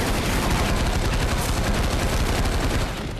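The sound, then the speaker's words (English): Loud, dense bursts of automatic assault rifle gunfire run without a break for about three seconds. The rapid shots blur together into a continuous sharp crackle before the sound cuts off. “That's a loud gun. Don't destroy the set. That's how an assault rifle should sound.”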